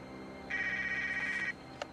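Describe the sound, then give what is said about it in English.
A car phone rings while the car is being driven, giving one steady electronic tone about a second long over a low hum, followed by a short faint click. “As Bill drives along, his car phone rings.”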